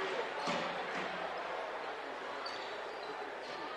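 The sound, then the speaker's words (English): A basketball is dribbled on the court during a game: a few dull bounces over a steady background wash. “Keegan going to dribble it out.”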